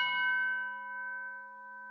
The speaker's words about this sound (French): Calme absolu. Il n'y a pas un bruit. Pas une voiture. juste des coups de cloche dans le silence.